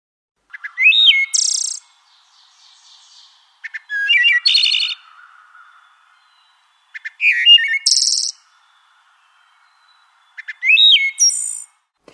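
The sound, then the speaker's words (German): Wood thrush song, from a species of North and Central America: four separate flute-like phrases with clear pauses between them. Each phrase has high, bright whistled notes that end in a fast, buzzy trill. “Hier als nächstes die Walddrossel, die in Nord- und Mittelamerika verbreitet ist.”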